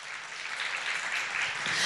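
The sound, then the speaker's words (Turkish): An audience applauds at a tribute to the Turkish film actress Türkan Şoray, a dense, steady round of clapping that holds at an even level and swells slightly toward the end. “Bir alkış alalım mı?”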